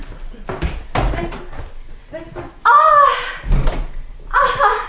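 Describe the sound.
A door is opened in a dramatic scene, with a few short clunks and thuds of the handle and latch early on, followed by people talking.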